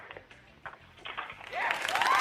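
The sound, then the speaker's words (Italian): Applause sound effect marks a winning answer in a quiz game. A voice talks first, then clapping swells and grows louder toward the end. “Attendavamo gli applausi ufficiali perché hai vinto.”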